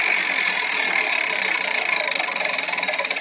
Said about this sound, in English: All right, spin the wheel.